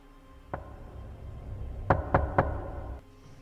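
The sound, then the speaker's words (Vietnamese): Knocking on a door, sharp and hollow: a single knock, a pause, then three quicker raps in a row over a low, quiet background. “Ông rùng mình khi nghe tiếng gõ cửa.”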